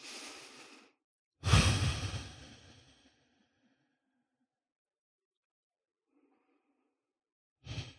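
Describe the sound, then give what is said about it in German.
A deep breath drawn down into a full belly, as in a relaxation exercise, swells into a loud airy rush and fades over about a second and a half. Fainter breaths come just before it and again after a long quiet gap. “Atme einmal ganz tief in den vollen Bauch runter.”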